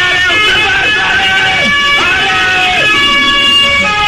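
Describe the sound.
A police van's siren wails as it arrives, loud and continuous with gliding, rising and falling tones throughout.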